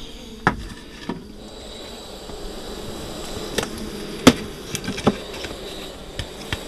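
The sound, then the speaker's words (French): A weak honeybee hive that survived the winter but is not developing gives off only a faint hum from its few bees. A few sharp wooden knocks and taps punctuate it. “Alors ici, on va regarder cette ruche ici, pourquoi elle se développe pas. Ouh là là, elles ont déserté, on dirait. Elle a passé l'hiver, mais elle se développe pas. Il y a quand même un peu du monde, mais pas beaucoup.”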